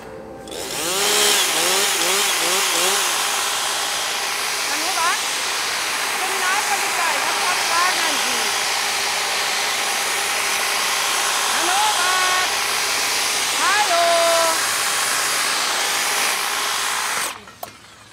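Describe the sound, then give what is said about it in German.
An electric hedge trimmer cuts a hedge with a loud, steady, high buzzing whine that runs almost the whole clip and cuts off just before the end. A man's voice talks over it. “Hab ich keine Zeit, muss schneiden, Hecke.”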